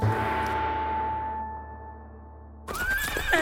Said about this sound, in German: Gaul will nicht weiter. Der Gaul weiß, wo er dich hinbringen soll, Weib.